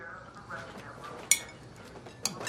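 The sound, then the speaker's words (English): A serving utensil clinks against dishes as food is scooped from a bowl onto a plate at a table: two sharp, bright clinks over a soft, quiet rustle. “grabs a bowl from the table. He scoops food from it onto his plate.”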